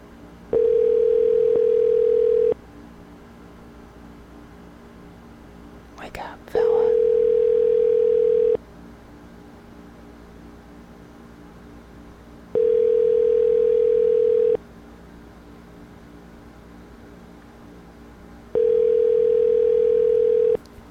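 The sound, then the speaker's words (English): Ringback tone while calling a home phone: four steady, mid-pitched tone bursts, each about two seconds long, separated by regular longer pauses over a constant line hiss. “Let's call his home phone. Here we go. We're calling you, fella. Wait for your phone to ring.”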